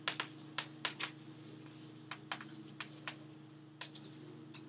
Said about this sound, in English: So if you call this function, and I'll write the main function here.